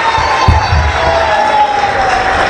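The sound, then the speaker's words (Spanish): Crowd cheering and clapping at a community council building inauguration and cultural event, a loud continuous roar of voices and applause with a steady high whistle-like tone running through it. “sobre todo un aplauso fuerte con mucho cariño para nuestro comandante Chávez”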